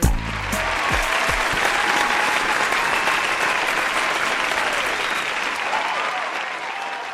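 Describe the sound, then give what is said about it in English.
Lively studio audience applauding at the start of a dating show taping, a loud, dense, steady wash of clapping that begins sharply and keeps going without a break to the end. “Wow, our studio audience is particularly lively.”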